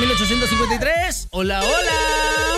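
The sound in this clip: Telephone ringtone for an incoming call on a phone line: loud, melodic electronic tones with wavering pitch, a brief dropout partway through, then a steady sustained tone.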